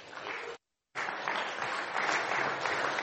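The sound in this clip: Audience applause welcoming a speaker at a plenary session: dense, steady clapping that breaks off for a moment and then resumes just as full.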